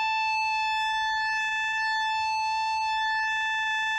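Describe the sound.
A synthesizer plays a pulse wave whose on and off times are unequal. It holds one steady, bright, buzzy tone rich in overtones at constant loudness for the whole clip, with no rhythm or change in pitch.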